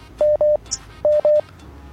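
A telephone call connects on a radio phone-in, with four clear, evenly pitched dialing beeps in two quick pairs and a short click between them.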